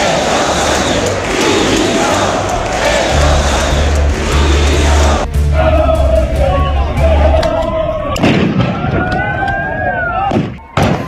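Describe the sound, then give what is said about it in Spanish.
A riot by far-right protesters outside the Congress in Madrid is broken up by police after a demonstration. Dense, loud crowd shouting and yelling goes on throughout, with sharp bangs and hits in the later part. “Son los disturbios que se han producido en Madrid una vez terminada, como decíamos, la manifestación de la capital, que ha reunido a decenas de miles de ciudadanos pacíficos. La policía ha disuelto a este grupúsculo de ultras frente al Congreso,”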